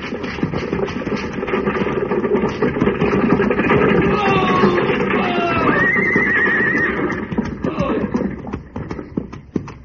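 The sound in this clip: Horses ridden forward by a posse to stop a stagecoach in a western setting, a dense, steady rumble of hoofbeats with a loud, high whinny rising out of it near the end.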